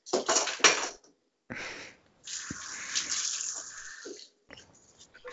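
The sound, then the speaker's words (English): Clatter of a fork and a plastic knife being handled while washing at a sink, with running water. A few sharp bursts of clinking are separated by short pauses, and a longer stretch of water and scraping follows. “I'm going to wash my fork so I can make a peanut. Well, actually, I have a plastic knife.”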